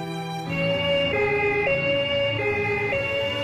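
An emergency vehicle's siren sounds while on duty, with a loud, steady two-tone call that switches back and forth between a high and a low pitch.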